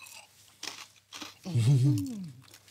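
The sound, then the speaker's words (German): Crunchy food topped with fig, cheese and honey is bitten and chewed, giving two short crisp crunches followed by a voiced hum of approval. “Deswegen gehe ich mal so rein. Ist natürlich knusprig, wie man unschwer hören kann.”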